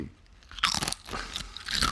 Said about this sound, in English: chomp on a Dorito in the microphone if we need to